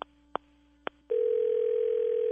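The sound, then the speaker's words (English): A telephone line tone heard while placing a call to someone: a few sharp clicks, then a steady, even electronic tone that holds alone to the end. “Well, hold on. Let me see if I can get him on the phone.”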